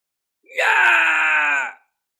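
A single agonized scream of pain swells quickly and holds at a steady, strained pitch for just over a second, then cuts off into silence.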